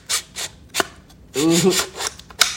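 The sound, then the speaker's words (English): A rifle bolt worked slowly and not fully seating into battery makes several short, dry scraping strokes and one longer grinding drag of metal on metal, with quiet gaps between them. “The bolt doesn't go all the way into battery. You got to smack it up a little bit. Smack it. All right. Here we go. All right, everybody, listen up. Oh, that's horrible. All right, now do it slow so I can hear how bad it is.”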